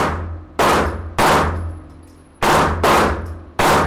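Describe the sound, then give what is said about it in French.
Gunshots ring out as women fire at cardboard targets during a ladies' night at an American shooting range. Five loud, sharp reports crack at irregular intervals, and each decays into a lingering tail before the next. No voices are heard. “des dizaines de femmes de tous les âges et de toutes les origines tirent sur des cibles en carton.”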